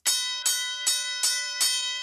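A handheld bell rung by a host at his desk strikes five times in an even rhythm, each bright, metallic ring sustaining and overlapping slightly before the next strike.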